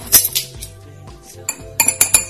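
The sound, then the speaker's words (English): An empty pepper grinder with no peppercorns left is turned, giving a few sharp, bright clicks and clinks in an irregular rhythm, with quieter rattling between them and no grinding sound. “about 10 turns of black pepper. Some freshly cracked pepper. What's happening here? Yeah, I think this thing's out of peppercorns.”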